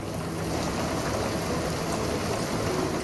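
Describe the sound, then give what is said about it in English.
Rain falling steadily, a dense, continuous hiss of drops at an even, fairly loud level, heard alone. “Even the sound of rain falling”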